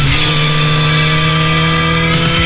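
A motorcycle engine at a motard rally in Apúlia runs with a loud, steady, harmonic drone that stays nearly constant, with only a slight wobble near the close.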